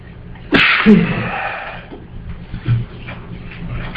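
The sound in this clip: A single loud, sharp sneeze bursts out during a religious lesson. It is followed by softer low shuffling and murmuring sounds.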